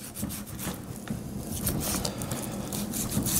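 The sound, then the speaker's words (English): A knife trims loose fat from a piece of meat being prepared for sausage meat, making a steady, continuous rubbing and scraping with no talk. “Okay, we're just trimming it. See here if I can turn it. I can show you. I'm just trimming off that fat.”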